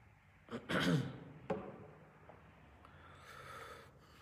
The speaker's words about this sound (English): excuse me, I've got a bit of muesli or something stuck in my throat.